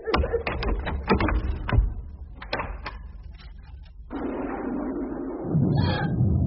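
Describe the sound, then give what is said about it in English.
A door with a light showing beneath it is opened: a run of sharp clicks and knocks comes first, then a steady, noisy rush takes over and holds to the end. “It's the door. There's a light under it. I'm going to open it.”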